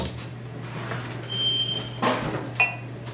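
A can of stout cracked open, giving a short hiss and a sharp metallic click, fairly faint over a low steady hum.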